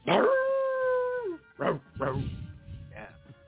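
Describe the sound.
A wet, hairy dog lets out a long, steady howl whose pitch drops at the end, then follows it with a few short, sharp barks and yips.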